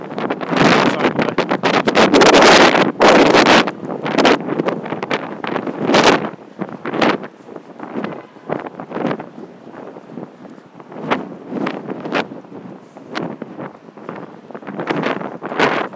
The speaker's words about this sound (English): Right, you're not going to hear much with this wind blowing, are you?